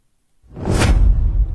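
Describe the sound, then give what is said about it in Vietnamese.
A wooden staff slams hard against the ground, rendered as a deep, booming whoosh that swells quickly, then holds as a loud, broad rumble for over a second with no voices. “Chỉ thấy chị Đan giơ cây gậy cao rồi giọng mạnh xuống đất đánh đùng một cái.”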